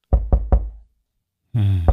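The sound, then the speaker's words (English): Three heavy, evenly spaced knocks, low and booming. After a short silence comes a sustained low harmonic drone with one more thud near the end. “The knocks. Oh, the knocks. The knocking, the knocking.”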